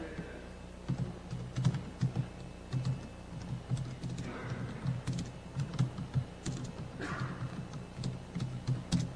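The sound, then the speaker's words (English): Fast typing on a computer keyboard: many soft, quick keystrokes fall in an uneven but steady rhythm. The typing is faint and no one speaks. “I know watching me type is not necessarily the greatest of things”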